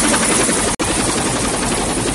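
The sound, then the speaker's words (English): A helicopter comes in over a tree canopy to land in a camp, its rotors making a loud, steady whirring roar that is broken once by a very brief dropout. “Tay points as the chopper hoves over the tree canopy and comes into land in the camp.”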